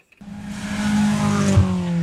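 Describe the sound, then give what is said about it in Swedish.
A rally car in a competition in Blekinge, Sweden, roars in after a brief silence, its engine holding a loud, sustained buzzing note with strong harmonics and a short thump partway through. “under helgen så gasar rallybilar från hela Sverige runt i tävlingen Rally Blekinge”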